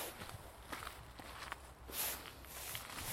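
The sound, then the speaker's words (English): Footsteps crunch on a hard-frozen, muddy track with frosted grass alongside. Several soft, steady steps follow one another at an even walking pace, with no talk over them. “So I'm walking on the track behind the Rangers, rifle Rangers. Well, I'm not actually behind the Rangers yet, but on the way there.”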